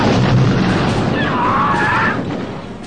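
Massed gunfire from troops lined up on open fields, firing their weapons as they march in battle. It makes a dense, rumbling roar that holds steady for about two seconds, then fades.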